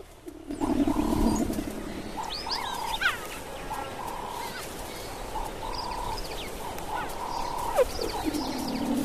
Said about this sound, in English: As they move, the young cats stay in touch using bird-like chirrups.